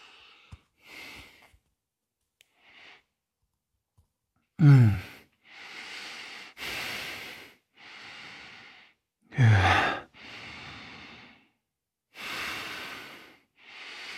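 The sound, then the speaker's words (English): Deep, slow breaths during a flowing yoga practice: a few faint breaths, then a long series of loud inhales and exhales, some released as audible sighs, spaced by short pauses. “And breathe.”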